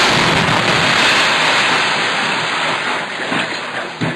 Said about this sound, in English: Then, last Thursday, a rocket hit the house where the activists were stationed.